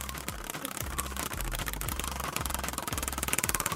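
A prize wheel of inappropriate questions is spun, its pegs ticking in a fast, continuous rattle that stays steady and turns sharper and more distinct toward the end.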